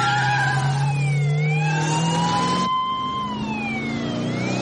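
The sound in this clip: A family car's engine revs and accelerates in one loud, sustained run, its note holding strong throughout while the pitch shifts and bends.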